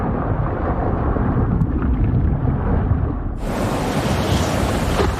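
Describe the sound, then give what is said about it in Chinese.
Storm over the Indian Ocean, with strong wind and driving rain lashing the sea surface: a dense, continuous roar of rushing noise that turns brighter and hissier partway through and stays loud throughout. “海面之上，狂风暴雨肆虐。”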